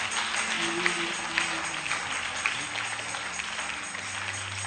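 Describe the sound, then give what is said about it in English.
An audience claps in praise of the Lord during prayer: dense, steady clapping runs through the whole stretch at an even level, with faint sustained tones beneath. “Give the Lord a clap of praise.”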